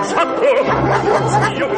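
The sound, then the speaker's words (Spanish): Guards' attack dogs bark angrily outside a house, rough overlapping barks running through the whole short stretch over a busy, chattering background. “Los perros de presa de los guardias ladran con rabia a Cornelio”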